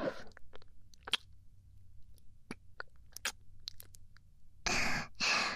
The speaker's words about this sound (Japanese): 耳たぶおいしそうで、ついハムってしちゃった。